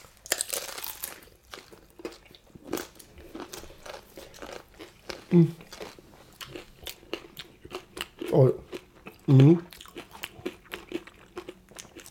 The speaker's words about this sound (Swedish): Om ni som undrar så är det knäckebröd, smör, gamla Olle, köttsky, rödlök och en jamaikansk rom.